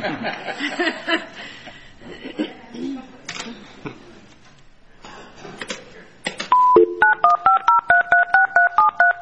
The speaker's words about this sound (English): My computer when it's dialing up.